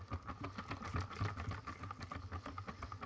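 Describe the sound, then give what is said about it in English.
An electric whisk mixes a runny batter still holding floating bits of flour, giving a steady whirring motor drone with a light rattle whose loudness wavers throughout. “Nice to see that the whisking is coming through stronger than my voice.”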